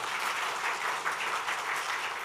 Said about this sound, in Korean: 박수로 환영하겠습니다.